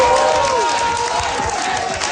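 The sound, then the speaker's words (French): Supporters cheer and applaud a winning candidate at an election victory gathering. A steady, dense roar of crowd noise holds throughout with no pauses, and a few voices rise above it. “Acclamé par ses militants après sa victoire, Stéphane Tremblay”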